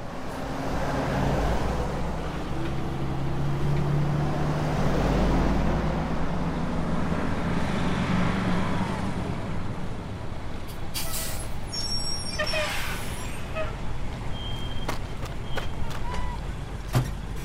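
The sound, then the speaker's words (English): A truck convoy rumbles in with a heavy, continuous engine drone, then several sharp air-brake hisses burst out in quick succession as the trucks pull up. “We're hitching a ride on a convoy now.”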